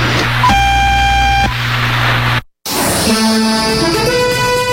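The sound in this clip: Radio hour time signal from a naval observatory in Caracas: a steady, buzzy tone of about one second over a constant low drone, then a brief silence and a different tonal sound.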